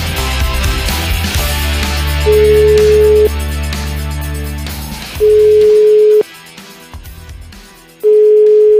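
A telephone line tone sounds while a number is redialed: three steady, mid-pitched beeps about a second long, separated by pauses, first over dense background sound that drops away partway through.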